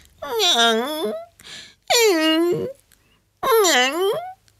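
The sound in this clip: A voice imitates a dog whimpering pitifully. Three long wavering wails, each dipping and rising in pitch, are separated by short gaps and a soft breathy sound.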